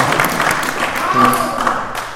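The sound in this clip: A round of applause from a meeting audience, a steady patter of many hands clapping with talk audible over it, swelling slightly midway before easing off.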